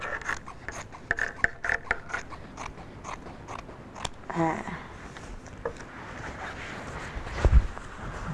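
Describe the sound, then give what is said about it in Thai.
Scissors cutting fabric bit by bit, with the cloth and blades kept low: a run of short crisp snips and crunches, several quick ones close together early on, then sparser scraping cuts. “พอเราตัดเสร็จแล้วนะคะตรงนี้นะคะเราก็ค่อยๆไล่ตัดทีละนิดนะคะเวลาเราตัดผ้านะคะเราจะต้องไม่ยกผ้าหรือยกกรรไกรอะไรขึ้นมา”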